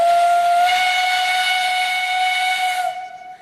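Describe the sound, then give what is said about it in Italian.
A steam locomotive's whistle sounds as its pressure valve opens: one loud, sustained, steady whistle with a hissing edge, holding its pitch for about three seconds before cutting off and leaving a fading hiss. “E questo è il suono caratteristico di quella che è stata chiamata locomotiva e di quando viene aperta la valvola della pressione, suono che è stato chiamato, e ha ragione, fischio.”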